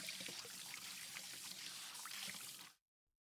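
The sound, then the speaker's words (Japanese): Hot water pouring into a cooking pot for pasta: a continuous, bright, splashing gush of liquid runs steadily for nearly three seconds, then cuts off abruptly into silence. “まず、こちらにお湯を入れます。”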